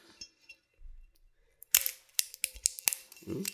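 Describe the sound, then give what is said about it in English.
Shrink wrap being stripped from a spirit bottle: after a quiet start with a faint low rumble, many short crinkling snaps and crackles follow in quick, irregular succession. “So now let's open it up and have a drink. There's some shrink wrap here.”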